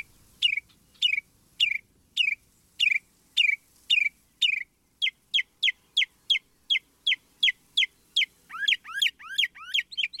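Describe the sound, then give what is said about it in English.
Northern mockingbird singing in spring, a long run of many short, high, sharply repeated phrases. Even bursts of chirps give way to quicker, upward-sweeping notes near the end, with no voices. “some resident birds are beginning their spring singing, especially in the southern states, like this northern mockingbird.”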